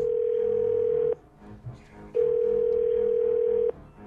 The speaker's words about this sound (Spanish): ¡Vuelven a marcar!